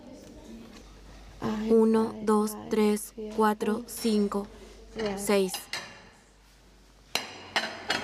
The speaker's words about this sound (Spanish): ¿Puedes sacar una sartén grande? Sí. ¿Qué sartén? ¿Pequeña? ¿Grande? La grande, por favor.